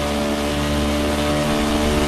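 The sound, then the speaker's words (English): A V8 race car engine roars on the banking of an oval track through turns three and four, giving a loud, steady, buzzing drone rich in harmonics with no break in intensity. “Let you enjoy some of that sound that is coming out of the V8 of this machine.”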